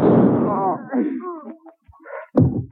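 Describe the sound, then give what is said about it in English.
A gunshot in a radio drama cracks out as a single sharp, loud bang near the end, following a stretch of agitated voices and a brief lull. “He's got a gun. Don't shoot, Rachel.”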